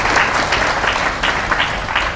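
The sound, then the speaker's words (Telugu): An audience claps at a Telugu spiritual discourse about Yogini Ekadashi. The applause is loud and dense, a continuous patter of many hands with a gentle rise and fall in intensity. “మరి వినరే, చప్పట్లు కట్టిపడాలి.”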